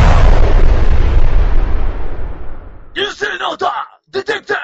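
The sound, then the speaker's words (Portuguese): A loud booming explosion sound effect bursts out with a deep rumble and fades away over about three seconds. Then people start talking. “Explosão, ele tem que fazer explosão.”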